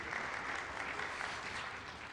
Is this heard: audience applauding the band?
yes